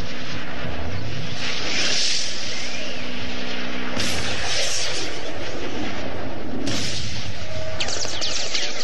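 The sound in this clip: Engine roar of five airplanes flying in the sky above a city: a loud, continuous drone that surges in waves, with a steady low engine tone underneath.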